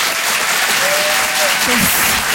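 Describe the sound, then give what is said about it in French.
An audience at a live comedy and song show applauds in thunderous, dense clapping that stays loud and steady throughout, with a faint cheer rising briefly above it. “Je vous demande un tonnerre d'applaudissements là aussi pour Philippine Delair”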